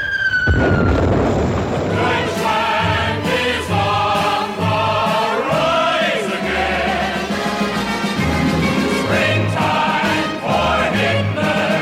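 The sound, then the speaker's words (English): Bombs fall from the sky and explode in a stage musical scene, with several booming bursts punching through loud, sustained orchestral music for the whole stretch. “Bombs falling from the skies again.”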